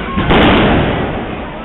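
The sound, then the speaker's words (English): Police fire tear gas canisters at protesters: one loud, deep, boomy blast that rolls into a rumbling wash of noise and slowly fades. “The police started to move in, firing tear gas at the protesters.”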